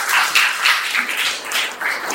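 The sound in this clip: Applause from an audience welcoming guests to a college programme on Sanskrit literature: dense, steady clapping with uneven surges that holds for the whole brief moment.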